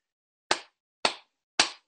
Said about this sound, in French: Donc on frapper des mains, c'est aussi simple que ça.